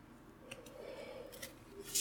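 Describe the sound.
A Lorcana trading card booster pack is torn open with a few faint, brief crinkling rips of the wrapper.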